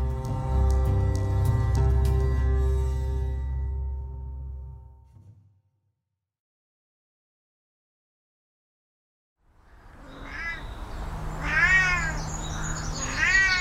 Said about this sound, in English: You're listening to the calls of a Scottish wildcat. It's a sound that's echoed across parts of Scotland for thousands of years. But this one is yowling in the country's Highland Wildlife Park.